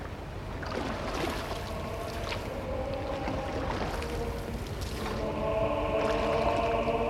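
Water and boat noises as people climb into a boat and push off, a steady, even wash of sound, with a louder sustained tonal layer joining near the end.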